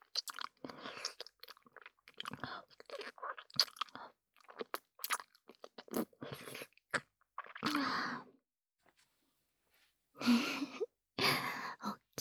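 Crunching and chewing of an apple being eaten, with several loud, crisp bursts of biting and munching separated by short pauses and quiet gaps, with no talking.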